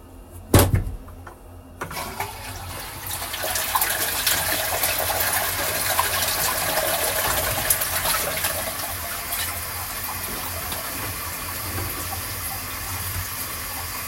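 Water flushes urine away from a washbasin. A dull knock comes first, then a loud, steady rushing gush of water runs for about twelve seconds.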